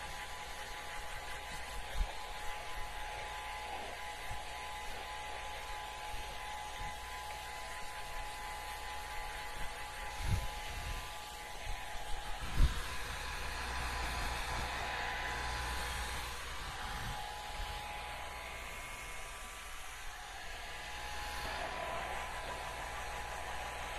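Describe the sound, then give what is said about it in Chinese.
A hair dryer blows a man's hair dry with a steady, quiet whooshing drone and a faint tonal whir, continuous for the whole stretch with only small shifts in level. “好的，先生，现在头发已经吹干了”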